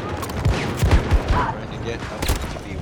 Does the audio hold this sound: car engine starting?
no